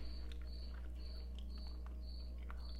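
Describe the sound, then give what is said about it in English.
Cricket chirping in a steady, repeating pattern of faint high chirps, about every half second, over a constant low hum. “we can hear the cricket in the background. Welcome, cricket, to our podcast.”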